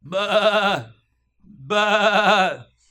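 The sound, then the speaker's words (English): Sheep bleating twice, each a wavering, nasal call of under a second, loud and clear, separated by a short silence. “What's that I hear? It sounds like the bleating of sheep to me. If I didn't know any better, I think that's what it was.”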